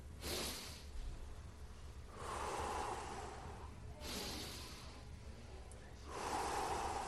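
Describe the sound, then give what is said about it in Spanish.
Deep belly breathing is demonstrated as a few slow, airy breaths, with noisy drawn-in inhalations and long unvoiced exhalations alternating at a steady, unhurried pace. “Pero cuando yo digo respiren profundamente, deben de hacer...”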